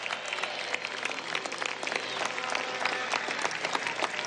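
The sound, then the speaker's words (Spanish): Applause from a crowd at a political event, with dense, overlapping clapping that stays steady and fairly faint throughout, with no clear pauses. “Un aplauso para el alto mando político revolucionario.”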